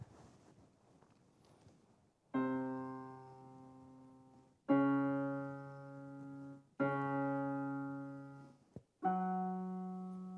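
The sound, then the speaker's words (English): Synthesized tones of an ideal plucked string: four separate low notes, each with a sharp attack and a smooth, gradual decay, holding a steady pitch with a rich stack of clean overtones. “So if this was a nice, well-behaved instrument, it would actually sound like this.”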